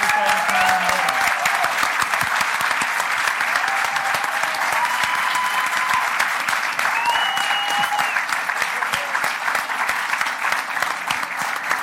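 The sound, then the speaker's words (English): Applause from an audience welcoming a speaker: dense, steady clapping from many hands that holds at full strength for the whole stretch, with no pause or fade. “So can you please put your hands together and welcome.”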